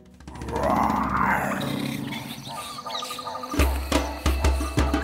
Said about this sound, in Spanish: aunque pensándolo un poco mejor, mejor que se escondan que viene el león.